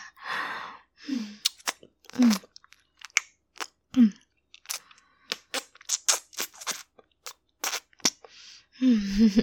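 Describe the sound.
Crunchy chewing of food: many sharp, irregular crunches and bites follow each other in quick succession, fairly loud and alone, with short pauses between bursts.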